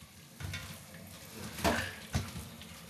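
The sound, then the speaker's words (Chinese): Food sizzles and fries in a pan during home cooking, a continuous hiss broken by a couple of louder scraping knocks from stirring with a utensil. “他很少点外卖，都是自己来动手做饭。”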